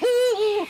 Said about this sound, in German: Das ist der Uhu.